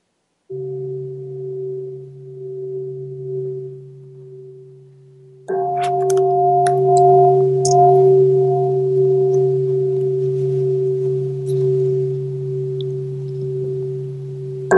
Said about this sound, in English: I have called the Yeshua codes, and you'll hear them now. Some of you have heard them before.